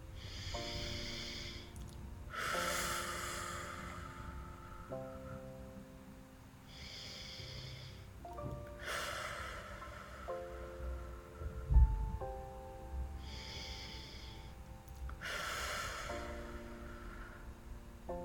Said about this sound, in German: Nimm mal nochmal 3 Atemzüge, bevor du dann jetzt gleich ins Hier und Jetzt zurückkehrst.